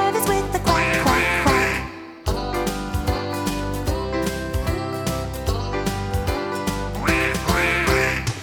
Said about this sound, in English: But the one little duck with the feather on his back, he led the others with the quack,